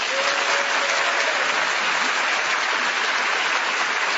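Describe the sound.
Studio audience applause welcoming the teams on a comedy panel show, dense and sustained clapping that holds at an even, fairly loud level throughout.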